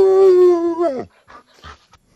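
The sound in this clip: A woman imitates a dog, giving a long, steady howl-like whine that bends downward in pitch at its end, followed by a few short, fainter yips and whimpers.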